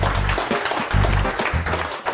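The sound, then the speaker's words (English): Audience applause at a Tampa .NET user group meeting, a dense, steady wash of many hands clapping at fairly even loudness, with a low rumble underneath. “Round of applause, Nikita.”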